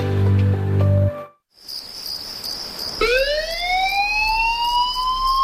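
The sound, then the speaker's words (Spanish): An emergency alert alarm sounds at four in the morning. After a brief low sound and a moment of silence, a high steady whine comes in, then a siren-like tone starts abruptly, sweeps upward in pitch and levels off loudly. “Son las 4 de la madrugada. Suena un aviso.”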